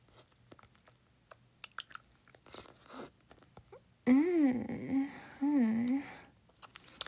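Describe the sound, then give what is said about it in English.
Chewing and biting into a hard, meaty, fat, salty sausage: faint wet clicks and crunches, followed by two stretches of wavering, hummed moaning from a voice. “I might have myself a sausage first. It looks nice and hard now. Meaty, fat, and salty.”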